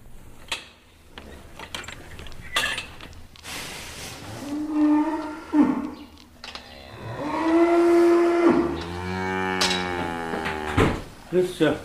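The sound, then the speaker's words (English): Cattle moo inside an old family farm barn, a few long, low, drawn-out calls between mechanical clanks and knocks, with people talking. “we can go out to the barn now, eh?”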